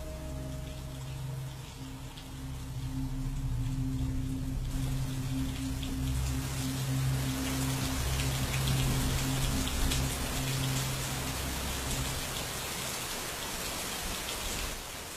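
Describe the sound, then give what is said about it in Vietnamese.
Heavy pouring rain falls in a dense, steady hiss that fills the whole clip, swelling slightly after the first seconds and then holding an even, loud wash with no voices. “Cho đến khi ông Tránh Hội lăn ra ngất xỉu, mưa xối xả vào mặt cũng chẳng biết gì.”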